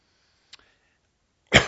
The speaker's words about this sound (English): my wife says make sure when you cough to cover the mic up. The problem is I always remember after I cough, so apologize for that.